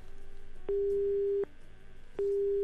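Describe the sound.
A telephone busy tone after a call to a radio phone-in cuts off: steady, mid-pitched beeps alternating with silent gaps of equal length, two clear loud tones, with no voices present.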